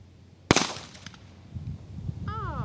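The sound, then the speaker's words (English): A single sharp gunshot from a small Smith & Wesson .22 handgun cracks out loudly, then decays quickly into quieter rustling and faint tonal sounds. “This is a little Smith & Wesson 22, probably one of the safest guns there is out there. Okay. And the least noise maker.”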